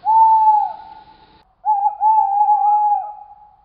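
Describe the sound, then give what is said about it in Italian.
An owl hoots from over a hill: a long, steady low hoot that fades away, then after a brief gap a second drawn-out hoot with a slight waver, loud and clear with nothing else around it. “venne il grido di un gufo, un suono di cattivo auspicio, ma niente rumore di passi.”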